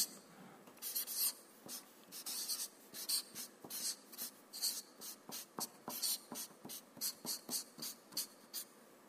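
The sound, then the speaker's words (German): A pen or marker writes a long word by hand in many quick, scratchy strokes. The strokes come in an irregular but steady rhythm, fairly faint, with no voices. “Ich schreibe das hier mal rein.”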